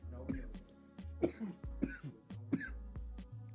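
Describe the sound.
A few harsh coughs and throat clearings from someone smoking marijuana, coming in uneven bursts over a low steady hum.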